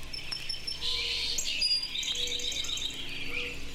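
Birds chirp and tweet in a park, with several quiet, high-pitched calls overlapping one another in an unbroken, gentle chorus.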